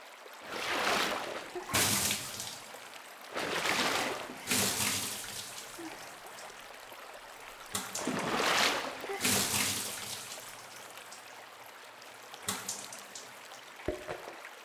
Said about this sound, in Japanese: もういいですから。流しますからね。